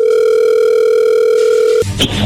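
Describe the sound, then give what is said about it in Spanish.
A telephone dial tone sounds while a call is being placed: a steady, unbroken tone that holds for almost two seconds, then cuts off abruptly into a few clicks and line noise. “vamos a llamarle en este momento.”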